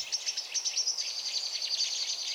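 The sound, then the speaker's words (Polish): A common blackbird and a song thrush call in conflict, making a dense, fast run of sharp, high chattering chirps. The calls keep a fairly even pace and stay faint and continuous throughout, with no voices. “Konflikt kosa i drozda śpiewaka.”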